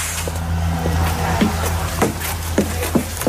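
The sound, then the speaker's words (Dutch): A ride on an electric trolleybus travelling from Oosterbeek to Velp near Arnhem carries a continuous low hum and broad rumbling road noise, with a few sharp clicks and knocks over the steady running sound. “een ritje maken in zo'n trolleybus, ons benzineloos voertuig van vandaag”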